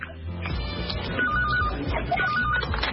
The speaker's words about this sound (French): Téléphone, on écoute.